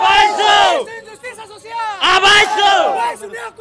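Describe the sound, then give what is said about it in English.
A marching crowd of university students in red chants in Timor, with two loud shouted bursts of many voices separated by a quieter stretch of scattered calls. “One of the groups making the most noise is MUTIA, a movement of university students.”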